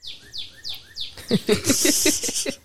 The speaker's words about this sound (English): I wish that bird would shut the fuck up. I kind of like the bird. I kind of like it too, yeah. It's okay. Relax. That's the sound of a cardinal.